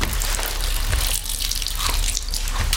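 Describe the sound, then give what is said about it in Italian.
A steady stream of liquid splashes into a sink as a man urinates into it. The hissing, splattering flow runs without a break and with no talk. “Ma papà, che schifo, non puoi pisciare nel cesso come fanno tutti. È casa mia, se voglio pisciare nel lavandino, io piscio nel mio lavandino.”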